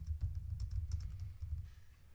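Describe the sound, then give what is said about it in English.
A song title is typed on a computer keyboard as a quick run of many soft, rapid key clicks, faint over a low rumble. “Type in”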